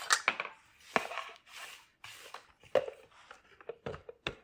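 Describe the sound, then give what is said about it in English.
A utensil scrapes the sides of a mixing bowl of buttery batter in a run of soft, rasping strokes of uneven length, faint and irregular with brief pauses. “And you want this smooth. And we're going to scrape the sides. We want all the butter lumps out.”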